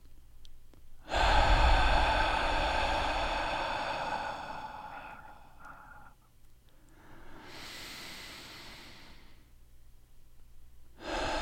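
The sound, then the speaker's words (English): People breathe in together, a long, steady, airy breath sustained for several seconds before easing off, followed by a shorter, softer breathy rush and another breath starting at the end. “And if you could just join with me here, let's breathe in together.”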